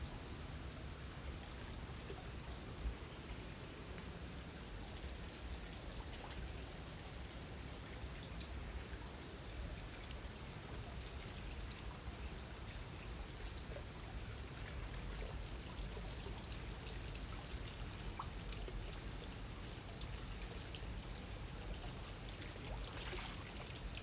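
Steady running water fills a hot bath in a guest room's tub, a continuous, even rush and trickle with no break or change in level and no voices.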